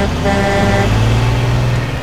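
The engine of a large truck drones loud, low and steady as the truck starts to drive off into snow. No one speaks.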